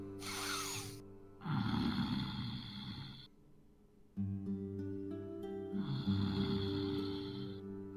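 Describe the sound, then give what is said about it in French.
A large creature breathes loudly and heavily: slow, drawn-out, rasping breaths that rise and fade in long cycles over a low, steady drone. “Vous entendez également une grande et forte respiration.”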